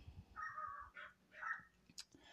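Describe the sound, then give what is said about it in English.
Dogs barking, faint and quiet: a few short, tonal barks spaced irregularly, the last one sharper and higher. “dogs are barking”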